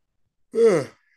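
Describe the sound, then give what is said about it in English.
A single yawn, a brief voiced exhale lasting about half a second, heard alone with no talking around it. “I'm over here yawning”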